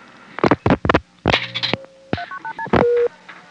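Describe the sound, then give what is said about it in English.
Touch-tone telephone dialing tones as zero is dialed: a quick run of short electronic beeps at differing pitches, then one longer steady tone, preceded by a few brief louder sounds. “Why don't I find out where the operators are? Dial 0.”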